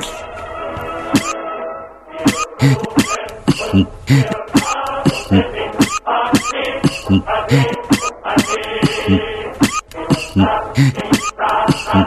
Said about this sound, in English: Very sorry, not the time to cough, really.